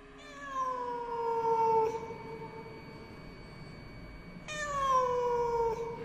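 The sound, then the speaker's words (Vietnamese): A cat being chased out through a window gives two drawn-out meows. Each wavers and falls slightly in pitch, and there is a quiet gap between them. No voices are heard. “Anh Đạt quay vào mở cửa sổ, rồi hòng đuổi con mèo ra. Nó kêu lên một tiếng, rồi nhảy vọt ra ngoài cửa sổ”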